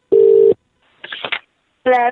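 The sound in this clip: Telephone tones during dialing for a prank call: two loud, steady electronic beeps separated by a brief stretch of fainter, voice-like sound.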